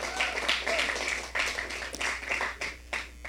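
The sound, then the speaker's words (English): Audience applauding a church worship team, a steady patter of clapping mixed with cheering voices throughout. “Thank you, worship team. Appreciate you guys. Y'all, give the worship team a hand.”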